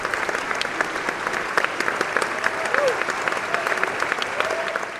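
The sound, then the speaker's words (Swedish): A concert audience applauds conductor Esa-Pekka Salonen after a student orchestra performance, a dense and steady wash of clapping hands that stays loud and even throughout. “Och här kommer han ju och får publikreaktioner värda en rockstjärna.”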